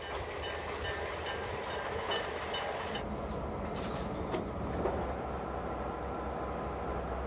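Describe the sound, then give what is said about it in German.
Faint, steady rumble as the oldest locomotive of its type in Taiwan, a 1960 US-built R21 engine, is turned at a 1922 roundhouse. Brief clicks and faint squeaks appear over the low drone. “Hier wird R21 gedreht, die älteste Lok dieses Typs in Taiwan.”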